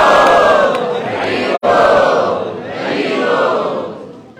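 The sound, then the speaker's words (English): Three loud unison shouts of "Hari Bol" from a Hare Krishna audience at a London sadhu sanga. Each call is long and sustained, and the first is cut off sharply before the next one begins. “So please, three loud Hari Bols for His Grace, Vaisesika Prabhu.”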